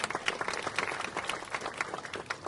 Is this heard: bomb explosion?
no